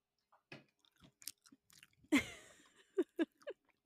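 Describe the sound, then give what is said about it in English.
Goldfish crackers crunch between the teeth during a mukbang eating session. A series of crisp, irregular bites and chews with quiet gaps between them, one louder crunch standing out midway. “I just got a huge hankering for fucking goldfish. You gotta do what you gotta do. I'm gonna stop, I promise. This is my last one.”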